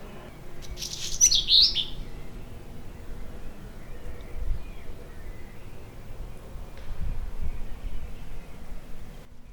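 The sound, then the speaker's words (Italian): Small birds singing outside, a brief burst of high, bright chirps and twitters early on, followed by quiet with only a faint low rumble in the background. “uccellini che cantano fuori e rumori di festa del Giro d'Italia sotto.”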